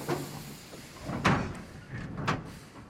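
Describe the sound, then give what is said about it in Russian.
A soldier with a submachine gun pulls open the sliding door of a railway freight car on a stopped train, giving a few rough scraping, rumbling bursts of wood and metal at uneven intervals. “Автоматчик открывает дверь теплушки.”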